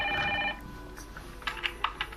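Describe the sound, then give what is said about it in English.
An unanswered telephone rings in a dramatized scene. A short harmonic ring sounds at the start, then gives way to a few faint clicks. The whole clip is fairly quiet and has no voices. “Shall I pick it up? Let's not do that and see what happens. Wait. Keep on ringing.”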